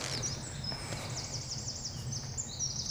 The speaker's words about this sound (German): Das ist der Zaunkönig, einer der kleinsten Vögel, die es bei uns gibt, aber mit der lautesten Stimme.